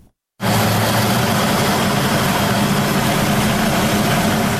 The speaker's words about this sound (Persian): این توربین کوچک در روستای دوآب ولسوالی خنجان ولایت بغلان برای حدود 50 خانواده انرژی برق تولید می‌کند.